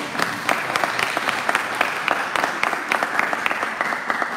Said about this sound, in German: Applaus, meine Damen und Herren.